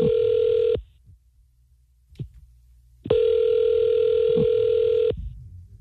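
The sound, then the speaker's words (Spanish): Telephone ringback tone on an outgoing call: a steady mid-pitched ring cut off near the start, a silent gap with a faint click, then one full ring of about two seconds. “¿le puedo llamar? Ya está sonando.”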